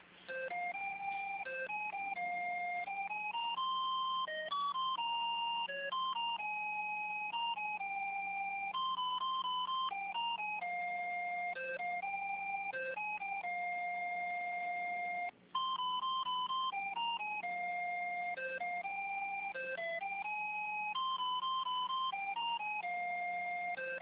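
Electronic melodic tones play while a telephone call is transferred, a steady looping sequence of bright, pitched beeps heard alone with a brief dropout partway through.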